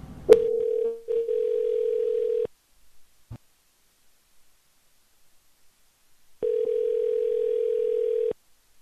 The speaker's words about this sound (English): Alright, let's dial a number.